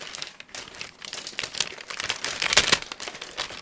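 Crinkling of an MRE beef stew pouch as the stew is poured out: a dense run of crackly plastic rustles with no voices, swelling to a louder burst near the end.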